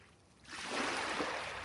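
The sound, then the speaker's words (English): Waves lapping a pebble beach in northwest Scotland with wind in the trees, a soft rushing wash that swells after a quiet start into a steady, broad hiss of water and air. “Waves lapping the beach, wind bending the trees, and the tides pulling the pebbles along the shore.”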